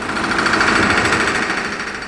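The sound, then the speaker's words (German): Pneumatic riveting hammers pound on the shipyard slipways of the Weser yard, where the Norddeutscher Lloyd express liner Bremen is being built. The hammering is a rapid, continuous, deafening rattle at steady loudness with no pauses. “Von den Helligen herüber dröhnt das ohrenbetäubende Klopfen der Niethämmer.”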